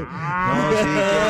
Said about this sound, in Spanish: Ahí está la vaquita de gas. La vaquita. No quería quedarse afuera ella.